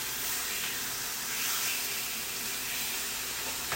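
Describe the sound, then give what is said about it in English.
Pork medallions searing in a hot pan give off a steady, hissing sizzle that holds at an even level without pause, with no talk over it. “So we are just going to let that do a quick sear for just a moment.”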